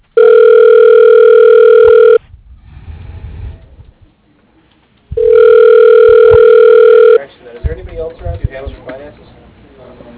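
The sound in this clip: Telephone tones while dialing out to a voicemail line: two long, steady, even ringing tones, each about two seconds, separated by a stretch of low rustling noise, with faint murmuring sound after the second tone.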